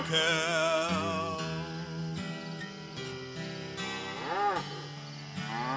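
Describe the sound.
A human voice imitates a cow mooing, giving drawn-out, wavering lowing tones over a dense, steady background of other sustained tones, continuous and moderately loud throughout.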